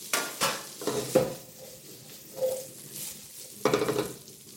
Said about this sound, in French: Et je vais venir jeter mes poires dans la poêle. Mon beurre commence à mousser. Vous entendez ce petit bruit bien sympathique. Et hop, je rajoute mes poires.